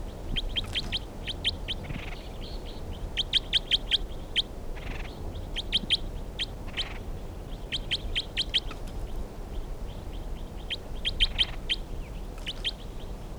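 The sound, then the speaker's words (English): Recorded song of a single numbered study bird: many bursts of bright, rapid chirps grouped into repeating phrases throughout, fairly faint over a steady low background hum. “Bird 321, stop. Recording the bird 321 again.”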